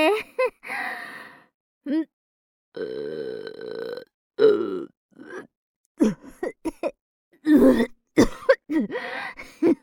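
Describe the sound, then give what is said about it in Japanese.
A loud, drawn-out burp after a meal in a cafeteria: a throaty, voiced belch amid several shorter vocal bursts, grunts and breaths. “やだ、でっけえゲップかましちゃったぜ。おくせ、胃から鼻に抜けて。”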